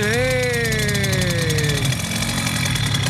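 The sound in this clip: A Simson moped engine, brought to life with the kickstarter, runs loud and buzzy, its pitch sinking from a high rev down to a steady, rough idle.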